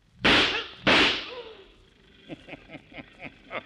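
Two sharp, loud gunshots crack in quick succession during a bank robbery scene in a radio drama, each with a short fading tail, followed by a few softer, irregular knocks.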